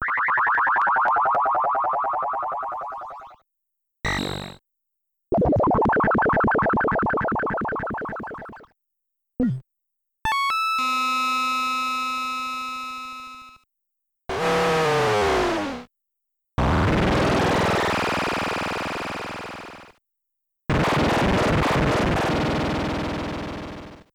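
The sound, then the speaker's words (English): Synthesized sound effects from the original Zelda II video game, built from modulated wavetable voices, play one after another with short silences between them. About nine separate effects include buzzy drones, warbling sweeps, a falling tone and bright harmonic chimes, each fading out. “We have an example here where we compiled all the sound effects from the original version of Zelda 2 that used those kinds of modulated sounds.”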